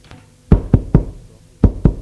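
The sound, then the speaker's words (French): Knocking on a door: a quick group of three firm, low thuds, a short pause, then two more, with a faint tap at the very start. “On a frappé à la porte.”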